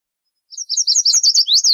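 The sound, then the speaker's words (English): Chestnut-sided warbler song at normal speed: a quick run of high, clear, sweeping whistled notes ending in an emphatic down-slurred phrase, loud and alone after a brief silence. “Here's the sound of a chestnut-sided warbler bird, right? It's at normal speed.”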